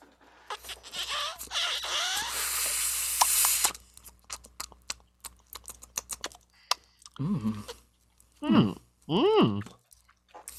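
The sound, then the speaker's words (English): Someone takes a dry pull through an unlit joint to taste its flavor, an airy hiss of drawn breath with light paper crackle, followed by scattered small clicks and brief talk. “we gotta take a nice little dry hit and see if we can get some extra flavor profile”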